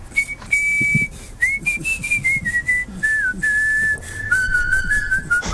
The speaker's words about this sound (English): record some more whistling. This is his whistle from earlier.